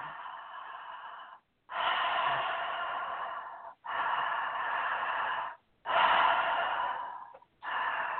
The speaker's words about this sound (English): a connected breath, which basically is you have an inhale and an exhale without a break in between. So you have an open mouth. It kind of sounds like this.